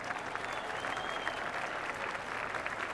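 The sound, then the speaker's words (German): Steady, dense audience applause welcoming the BMW board chairman at a plant event. Many hands clap evenly at an unchanging loudness for the whole stretch, with no voices over it. “Meine Damen und Herren, begrüßen Sie mit einem Riesenapplaus den Vorstandsvorsitzenden Dr. Norbert Reithofer.”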